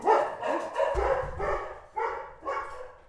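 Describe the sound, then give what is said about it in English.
Dogs barking inside a house, a run of several sharp, loud barks in quick bursts, the later ones spaced a little further apart, with no talking. “Sorry about the dogs. Not a professional studio. Part of the ambiance in my house.”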